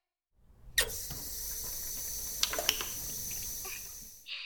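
Running water used for washing someone's body, a quiet steady hiss that flows for about four seconds with a few small clicks and splashes on top, then cuts off.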